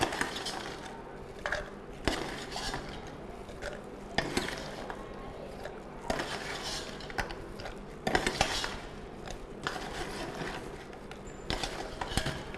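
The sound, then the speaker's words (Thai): A spoon scoops product into a jar, with repeated faint scraping and clinking and several sharper knocks spread throughout. “เป็นกระปุกได้นะครับเราก็ใส่ลงไปนะครับอาจจะใช้ช้อนตักลงไปได้นะครับ”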